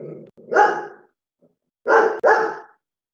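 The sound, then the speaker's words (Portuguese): A dog barks angrily at a bird at the window, giving a few sharp, loud barks in separate bursts. The last two come close together after a short pause. “O cachorro tá bravo aí, hein”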